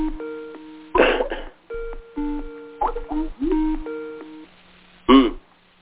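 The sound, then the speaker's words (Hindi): A telephone rings with an incoming call during a conference call, sounding as a series of electronic tone bursts in an uneven pattern, several marked by sharp, louder onsets before fading into the steady tones. “ओहो किसी दूसरे का अभी हो रहा है और India से फोन आ रहा समझ गया।”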